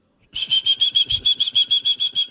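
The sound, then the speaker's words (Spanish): A street vendor with a red cart gives his traditional whistle: a rapid run of many short, shrill, high-pitched pulses at an even rhythm, loud and alone. “Ese es el tradicional silbido, ¿no? El hombre del carro rojo.”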